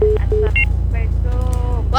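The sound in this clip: Telephone tones sound as a call connects: a few short, steady beeps at differing pitches, followed by a voice talking over a low rumble.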